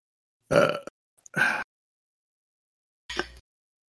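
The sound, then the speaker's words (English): A person burps loudly after drinking during a tabletop role-playing game session. The belch comes as a few separate throaty bursts with silence between them. “Was that a role play burp or just a drinking things burp?”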